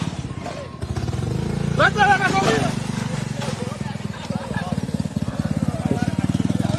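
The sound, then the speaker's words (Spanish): A homemade motorbike powered by a lawn mower engine putters with a rapid, steady chugging pulse that holds level throughout, and a voice rises briefly over the motor. “Esas motoras son las máquinas de cortar grama, cabrón. Eso es así. Es una máquina de cortar grama.”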